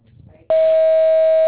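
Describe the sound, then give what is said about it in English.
A voicemail beep tone sounds as one steady, high, pure tone lasting about a second, loud and unbroken. It follows a brief stretch of faint low murmur and ends abruptly. “Please speak clearly after the tone.”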